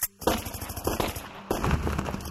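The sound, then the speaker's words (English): Loud gunfire from a submachine gun and a pistol as bodyguards shoot Indira Gandhi on her garden path: dense rapid automatic bursts of many shots, briefly broken near the middle before the firing continues. “They opened fire with a submachine gun and a pistol.”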